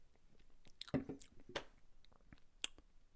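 Sipping Foster's lager beer: a few faint, wet slurping and squishy mouth sounds scattered over a quiet background, with no talking.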